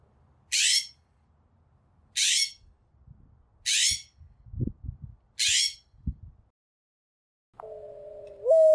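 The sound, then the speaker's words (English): Four harsh, rasping calls from a California scrub jay come at fairly even intervals, each a short, scratchy burst, with low rumbling noise between them. “The first one was a California scrub jay.”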